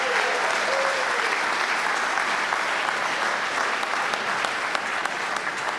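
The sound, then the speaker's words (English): A church audience applauds to welcome a new staff member and his family, with dense, steady clapping that carries on without a break. “I wonder if you could give them a warm Vernon welcome.”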